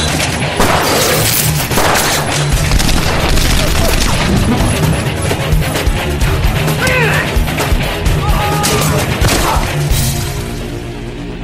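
Gunfire in a video game, with many sharp, loud shots in dense, rapid bursts mixed with crashes and booms, keeping up a continuous barrage from start to finish.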